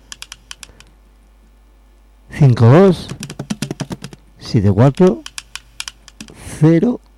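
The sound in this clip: Typing on a computer keyboard: a quick run of sharp, light taps comes first, then people speak in bursts with a few more faint taps between phrases.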